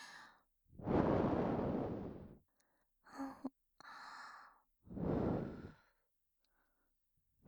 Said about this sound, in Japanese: 仕上げにお耳ふうしますからね。